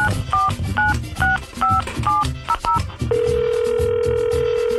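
Telephone keypad tones as a number is dialled, a quick series of short two-tone beeps, then a steady continuous tone that holds to the end.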